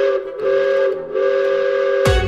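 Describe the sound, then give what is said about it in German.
An amusement park panorama train departs with a loud, steady whistle that dips briefly twice, then ends in a sudden broad burst of sound. “Danach geht's zur Panoramabahn. Die hält nämlich auch hier in Russland und fährt uns zu unserem nächsten Stop auf unserer Tour, quer durch den Europapark. Und Abfahrt.”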